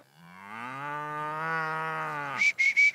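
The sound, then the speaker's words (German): A cow moos on a farm where old cows are kept with a bull, a single deep, drawn-out low moo lasting over two seconds, followed at the end by a few brief higher-pitched sounds. “Guck, der Bulle hat uns schon gesehen, ne? Oh oh. Queen, komm. Die ist bestimmt schon 15 Jahre jetzt, die Kuh. Also eigentlich, die Kühe sind alle relativ alt schon.”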